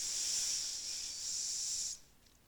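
A breath drawn in during a yoga class, heard as a soft, steady airy hiss that lasts about two seconds and then stops, leaving near silence.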